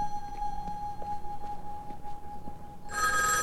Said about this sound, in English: He quickens his pace toward a phone booth. He glances behind him and trots to the ringing phone.